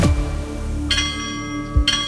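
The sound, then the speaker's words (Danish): A railway level crossing bell rings in Denmark with two bright strikes about a second apart over a steady, lingering ringing tone, alone without talk. “Klokkenerne ringer, alligevel er hver femte af os klar til at tage chancen og smutte over en jernbane, selvom de røde lamper blinker og klokken bimler og toget er på vej.”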